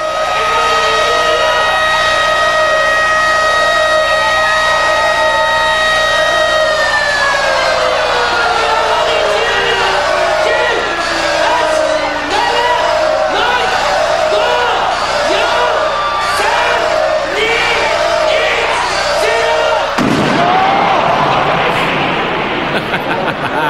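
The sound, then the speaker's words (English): Crowd noise at a hardcore wrestling match as an explosive-rigged ring goes off, with steady roaring and cheering over sustained whistling tones, then an abrupt loud burst about three-quarters through before the crowd noise carries on. “So this is the sound of the exploding ring in FMW.”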